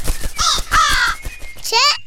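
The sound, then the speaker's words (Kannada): Crow cawing: a few harsh, nasal caws in quick bursts, loud and close together, with short gaps between calls. “ಕಾಗೆ, ಕಾಗೆ ಅಮ್ಮ,”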